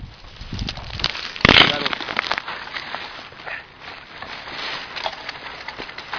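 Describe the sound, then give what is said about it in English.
Stalks of a so-called stick plant are snapped by hand, with one sharp woody crack standing out early amid rustling, softer cracking and people talking. “We call it the stick plant, and we destroy it and make sticks out of them.”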